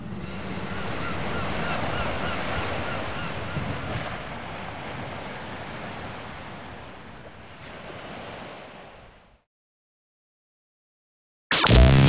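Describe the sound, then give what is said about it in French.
Sea waves wash in a steady, broad roar, with wind rumbling against the microphone. The surf slowly fades, then cuts off into silence before a sudden loud burst at the very end. “Il y a la mer. Tu vois, la mer qui...”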